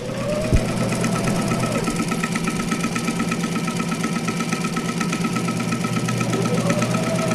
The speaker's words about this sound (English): The ladies' quilting group at First Reformed Church is hard at work. Sewing for a project aimed to provide warmth and comfort to children who need it most.